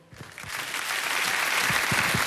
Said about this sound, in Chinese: 我们掌声有请他。